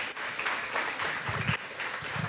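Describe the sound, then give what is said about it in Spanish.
An audience applauding at a Spanish-language religious sermon. The clapping is dense and continuous at moderate loudness, with some faint voices mixed in. “Un aplauso para ustedes mismos, por favor.”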